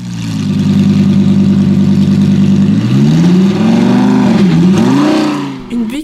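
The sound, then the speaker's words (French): A 1967 Skylark car's engine drones loudly and steadily at a mid pitch, then the pitch wavers up and down in the second half before the sound briefly dips near the end. “Skylark 1967, Blanc Moucheté arrivait à une vitesse de 1200 km par jour sur la voie de droite.”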